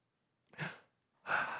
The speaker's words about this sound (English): We're going to try to hold our breath as long as possible. You ready? I want to show you that the longer you don't have air, the more you're motivated by it. Watch this.